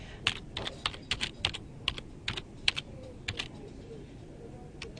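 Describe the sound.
Keys clatter as a search is typed on a computer keyboard. Many quick keystrokes come in irregular bursts and thin out toward the end.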